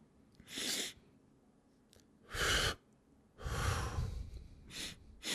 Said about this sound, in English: as I'm exhaling, I hold and then exhale again.